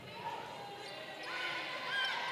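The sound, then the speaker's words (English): A basketball is dribbled during a women's game. Its bounces sit under steady crowd noise and commentators talking. “Continues with that dribble up top to Griffin.”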